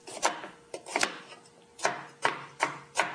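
A knife chops a washed, unpeeled carrot into small pieces on a cutting board. Sharp wooden knocks come in quick irregular bunches at first, then settle into a steadier, evenly spaced rhythm.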